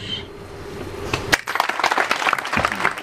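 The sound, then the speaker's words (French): Audience applause after a French love song at a live stage show: the song's final held note fades, then a sharp burst of clapping breaks out and settles into a loud, busy patter of many hands. “Mesdames et messieurs, encore un applaudissement pour Gaëlle.”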